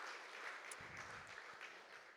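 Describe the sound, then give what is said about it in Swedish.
Audience applause for a man celebrating his 60th birthday, a soft, steady patter of many hands clapping throughout, with a brief low rumble partway through. “Ja, applåd.”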